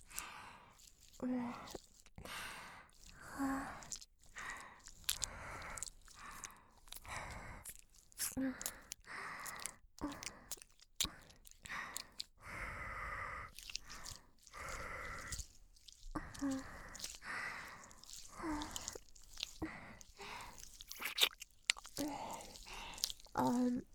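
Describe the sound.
Wet ASMR mouth sounds of licking and nibbling at an ear: many soft smacking, sucking and breathy bursts with short quiet pauses between them, faint throughout.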